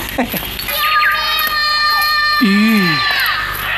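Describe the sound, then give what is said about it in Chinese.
A child cries in a dramatic scene, with wavering wails that swell near the end, mixed with other voices speaking. “悟空，你听，确实是个孩子。”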